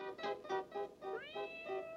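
A kitten meows in a steady run of rhythmic, pulsing high cries, with a brief upward-sweeping cry partway through, and no voices.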